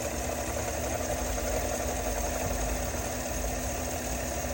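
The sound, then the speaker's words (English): A 2022 Chevy Silverado's 6.2-liter engine, paired with a 10L80 transmission, idles with a chattering noise from the passenger side: a steady, continuous mechanical drone carrying a fine, rapid rattle throughout, with no voices. “Customer states the vehicle has a chattering noise and it comes only at idle around the passenger side of the vehicle.”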